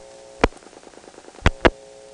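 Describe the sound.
Three sharp clicks over a steady low telephone tone as a hospital PBX's second register sender dials the final digit of a call to 670-1900, after the first register sender drops out.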